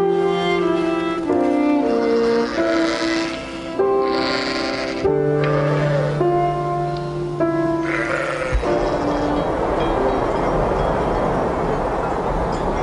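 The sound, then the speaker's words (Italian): Sheep bleating while grazing: many overlapping, wavering bleats from the flock, loud and sustained, with a rougher, noisier stretch in the last few seconds. “È una passione che ho, stare delle ore a guardare sempre le pecore, a pascolare”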